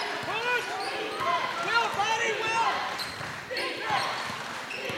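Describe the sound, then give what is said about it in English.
A basketball being dribbled on the court during a close game, its steady bounces heard under a commentator talking, with sharp high squeaks scattered throughout. “Alston again with that dribble up to Sanfilippo.”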